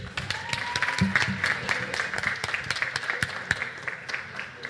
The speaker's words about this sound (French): On peut l'applaudir aussi.